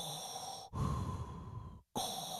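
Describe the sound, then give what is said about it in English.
A person imitates a masked villain's mechanical respirator breathing: hissing, breathy inhale and exhale sounds broken by a short silence, fairly faint and with no talk. “whenever there's a scene with Vader, there's just this tension in the air. He doesn't even have to be speaking, but it's because that breath is going on.”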